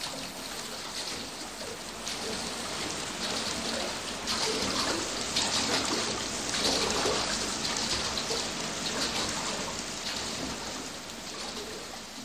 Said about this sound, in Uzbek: yana yomg'ir shivalay boshladi